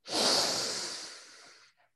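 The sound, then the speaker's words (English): Breathing during a guided breathing exercise: one long, loud rush of breath that fades gradually over nearly two seconds, followed by a tiny faint puff at the end. “And let it out slowly. Again, breathe in quickly.”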